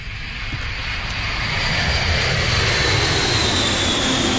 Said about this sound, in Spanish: ¿Se acuerda que les dije que íbamos a escuchar al Concord? Ya, ¿dónde está el Concord? Ahí estamos.